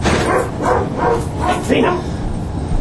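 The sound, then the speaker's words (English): Dogs barking in a quick run of several sharp, yipping barks, loud and closely spaced over a dense background. “The dogs went off. That was kind of random.”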